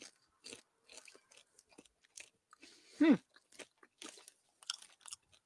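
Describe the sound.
Crisp crunching bites and chewing of a cheddar-flavoured pretzel, many short dry cracks in an uneven rhythm, with one brief voiced exclamation in the middle.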